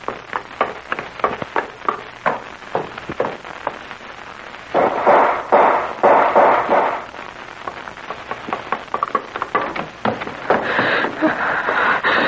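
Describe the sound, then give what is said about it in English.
Gunshots ring out by a waterfront: many sharp, loud cracks fire at irregular intervals, some in quick bursts, with short dense clusters of noise between them. “Hey, what's going on down there by the waterfront? Those were shots.”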